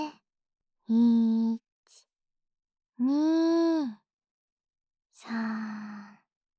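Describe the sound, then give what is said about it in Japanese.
Slow, deep, voiced breaths like heavy sighs during a guided breathing exercise. There are three long breaths, each under a second and separated by silence, with a brief faint sound between the first two. “あと2回いくよ。吸って。”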